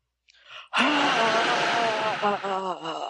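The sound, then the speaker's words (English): A person lets out a long, loud exhale after holding their breath. A brief softer breath comes first, then a sustained, voiced, groaning sigh that wavers toward the end. “And you can exhale now.”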